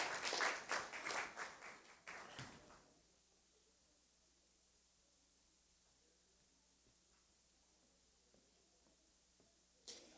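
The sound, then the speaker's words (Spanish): Audience applause at a Christian church gathering, cheering on the children before they sing. Dense clapping fills the first three seconds, then gives way to near silence with faint background noise. “Entonces, un aplauso, animémoslos a los niños. Ellos han preparado un canto.”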